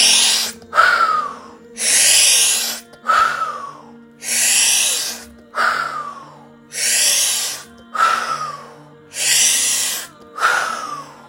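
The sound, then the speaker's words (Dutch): During a guided breathing exercise, a person breathes in and out through the mouth in many steady, airy, hissing cycles, alternating longer and shorter breaths at an even rhythm. “En dan gaan we mond in, mond uit.”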